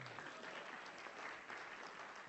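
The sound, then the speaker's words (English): Audience applause for a person being introduced on stage: dense, steady clapping from many hands, fairly faint and sustained throughout. “Danielle, and so everybody clap for her.”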